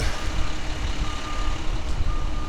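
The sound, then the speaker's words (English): An orange public works dump truck with a flatbed trailer on a residential street, a low, fluttering engine rumble throughout, while a high, steady reversing beep sounds in two long tones. “And then there's another orange Public Works dump truck. And then there's another one up the side street here with a trailer.”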